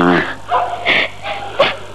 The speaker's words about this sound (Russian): Опять собаки в концовке воют.